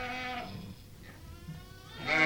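A ewe bleats right after giving birth to her lamb, two loud wavering calls marking the start and end with a quieter stretch between.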